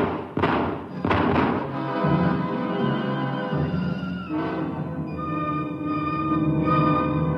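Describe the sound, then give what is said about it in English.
Gunshots fired at a man fleeing into the woods in a frontier drama: two sharp, loud bangs near the start, then a sustained ringing, tonal sound that slowly fades. “Let him have it, Jedekiah. No, wait! Hey! He's running for the woods. Shoot him, Jedekiah. Okay. Shoot him!”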